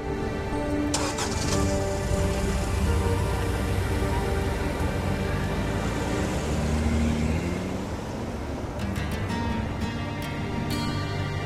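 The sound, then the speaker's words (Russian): A car drives away: a steady, loud engine rumble with road noise that eases slightly lower toward the end. “садится в свою машину и уезжает.”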